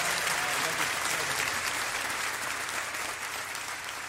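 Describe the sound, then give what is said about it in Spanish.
Warm applause from a concert audience between songs: dense, continuous clapping that stays strong throughout and eases slightly toward the end. “Un aplauso más fuerte para Reilly, por favor.”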